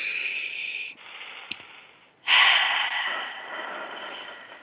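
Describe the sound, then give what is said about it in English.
A deep clearing breath taken in a calm, guided moment. It is a loud, breathy rush of air, then a quieter lull, then a second, stronger and longer rush that slowly fades. “I encourage you to let's take a clearing breath together.”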